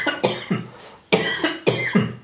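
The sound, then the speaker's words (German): Someone coughing: several dry, sharp coughs in two short bursts separated by a brief pause, fairly loud and with no talk over them. “Ich muss husten.”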